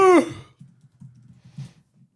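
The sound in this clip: Faint, irregular clicks of a computer keyboard as a search is typed. A short, voiced sigh comes just before the soft keystrokes.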